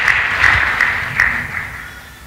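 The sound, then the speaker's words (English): An audience clapping for Jesus during a worship service, with steady, dense applause that holds at a fairly even level and trails off slightly toward the end. “let us clap for Jesus for what he does”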